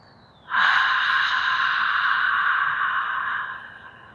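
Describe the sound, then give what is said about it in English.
Ujjayi yogic breathing: one long, steady, airy breath constricted through the back of the throat, with an even hissing rasp lasting about three seconds, heard alone. “I ujjayi breathe, the style of yogic breathing that constricts through the back of your throat, a little sound like this.”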